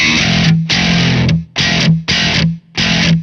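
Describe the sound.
Slap bass played through a low-gain distortion pedal, with the gain kept quite low. Five loud, gritty bursts of notes come in quick succession with short gaps between them, and no one talks.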